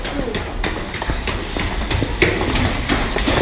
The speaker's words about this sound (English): I like to take the subways. When I get into the subway, I know I can relax.